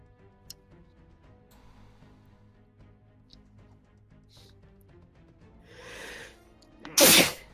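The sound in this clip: A single loud, sharp sneeze comes near the end, just after a breathy inhale. Faint scattered ticks and soft background noise fill the quieter stretch before it.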